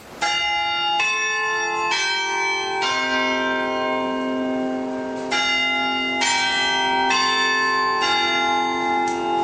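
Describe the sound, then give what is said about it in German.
Westminster chime church bells ring from the Red Tower on the market square in Halle, two phrases of four strikes each, with loud overlapping tones that sustain and blend between strikes. “den Westminster-Schlag, den kennen Sie doch. Ja, so klingt's in Halle, am Marktplatz, vom Roten Turm, da klingt es so schön.”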